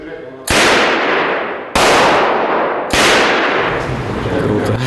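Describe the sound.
Three loud gunshots from World War II-era weapons, a Tokarev TT pistol, a PPSh submachine gun and a German MP submachine gun, fired at a Kemerovo shooting club. Each sharp crack is followed by a long, ringing decay.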